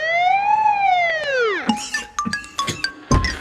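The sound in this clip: An ambulance siren sound effect gives a single wail that rises and then falls over about a second and a half, followed by a few sharp clinks and clattering knocks.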